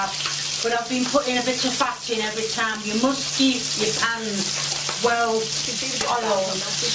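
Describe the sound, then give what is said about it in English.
Sizzling of buttered white bread frying in a crusty, well-greased pan: a continuous bright hiss runs throughout, partly masked by voiced tones and a steady low hum layered over it. “It should be white bread and you need to butter it both sides to get it perfect. Put it in the crusty egg pan.”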